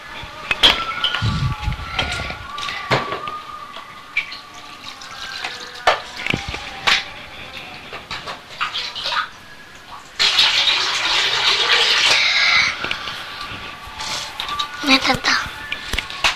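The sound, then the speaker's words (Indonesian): Water being poured out of a container and replaced with fresh water: a steady rushing stream runs for about two seconds midway, with scattered knocks and clatter and people talking around it. “Buang ya air ininya. Buang aja, ganti yang baru deh.”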